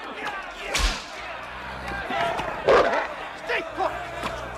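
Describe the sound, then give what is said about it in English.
Whip cracking as a man snaps a whip at a wolf cornered by a crowd: a few sharp, snapping cracks spaced unevenly, with voices and a busy background underneath. “a man snaps a whip at him”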